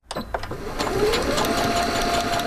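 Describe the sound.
A sewing machine in a bedroom turned sewing workspace in a Virginia Beach home stitches baby burial gowns made from donated wedding dresses. It starts with a few uneven clatters, then settles into a steady, rapid mechanical whir.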